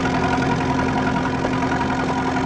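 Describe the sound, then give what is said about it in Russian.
A tractor engine runs in a field with a steady, loud, rough drone and a constant low hum throughout. “На поле работает трактор и запряженные плугом лошади.”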